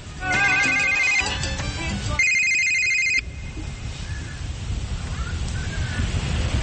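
A telephone ringtone sounds loud and electronic: a rapid melodic pattern of bright tones, then a faster pulsing beep, before it cuts off abruptly and only low background noise remains.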